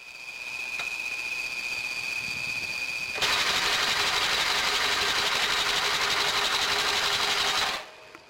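A sewing machine stitches a customer's shoe sole in a shoemaker's workshop in a camp. Its steady mechanical whir grows louder partway through, holds a fast, even drone, then stops abruptly near the end.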